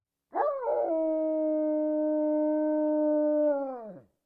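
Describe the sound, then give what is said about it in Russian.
A wounded alpha wolf gives one long, drawn-out howl. The tone holds steady, swelling briefly at the start and dropping away at the end, with no other sound around it. “Альфа отскочил назад, облизывая кровоточащую рану, и издал протяжный вой.”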